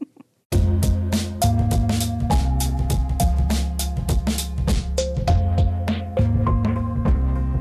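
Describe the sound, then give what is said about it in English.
A short musical sting: a catchy jingle of punchy chords and rhythmic hits that bursts in after a brief quiet start and plays loud and alone for several seconds. “Yes, what you just heard was called a sting.”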